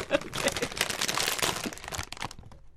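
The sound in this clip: A snack bag being opened and crinkled: loud, dense, crackling rustles of the packaging run continuously for about two seconds, then fade out.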